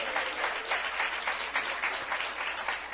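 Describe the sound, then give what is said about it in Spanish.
Church audience applauding in praise, a steady, dense patter of many hands clapping, fairly faint and continuous throughout with no talk over it. “¡Dele un aplauso de alabanza al Señor!”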